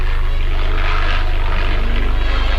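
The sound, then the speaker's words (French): Propeller engine of an early Voisin biplane at an early aviation meeting, a loud, continuous drone with a rapid, even low-pitched pulsing throughout. “La brillante démonstration de Louis Pollan sur biplan voisin.”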